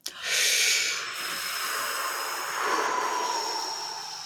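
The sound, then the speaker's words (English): A deep breath, a long airy rush of air that swells quickly and holds steady for about four seconds, with no talking. “I will kick it off by taking a deep breath.”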